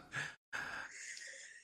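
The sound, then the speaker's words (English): A deep inhale, quiet and breathy: a short drawn breath, a brief silence, then a longer, steady intake of air. “Deep inhale and then go.”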